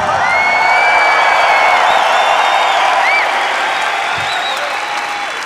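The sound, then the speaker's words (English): Audience applause and cheering for the bass guitarist at a concert, dense, steady clapping with scattered whistles and whoops that stays loud throughout. “Ladies and gentlemen, please make some noise for Casper Boy Larsen over here on bass guitar.”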